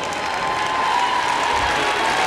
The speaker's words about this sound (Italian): Prenditi tutto l'applauso della piazza!